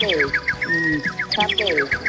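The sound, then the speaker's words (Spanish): Small birds chirping: a quick, steady run of bright, high chirps that slide downward in pitch, with lower calls underneath. “qué belleza. La naturaleza, ¿sí o no? Los pajaritos.”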